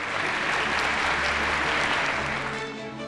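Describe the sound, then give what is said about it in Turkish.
Audience applause at an award ceremony as prize winners are called to the stage: dense, steady clapping from a large crowd that holds for the whole stretch and eases slightly at the end. “Alkışlarımızla kendilerini sahneye davet ediyoruz.”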